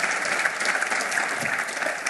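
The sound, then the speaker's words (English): An audience at a live show applauds a volunteer with steady, dense clapping that stays at a moderate, even level throughout. “Round of applause, ladies and gentlemen.”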